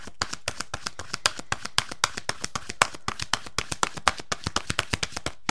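Oracle cards being shuffled: a long, steady run of many crisp, dry slaps and taps in quick, fairly even succession, clear and prominent throughout with no voices.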